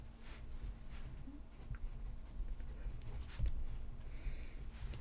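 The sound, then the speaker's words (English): A pen writes on paper, making faint, irregular scratching strokes that continue throughout, with a low steady hum underneath. “I know, we're writing.”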